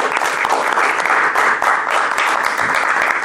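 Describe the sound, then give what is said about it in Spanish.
Steady applause from a crowd, given to journalists at a municipal council member's press statement. The clapping is dense and even, and it runs without a break for the whole stretch. “pedirle un aplauso a los periodistas,”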